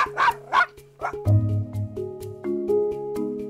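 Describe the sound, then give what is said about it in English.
Barking from a large St. Bernard and a small Chihuahua: three sharp, high-pitched yips first, then longer, lower-pitched sustained vocal sounds broken by short clicks. “But the vocal quality of the barks easily gives away the size of the dog. The lower-pitched dog is a large St. Bernard, while high-pitched Fido is a small Chihuahua.”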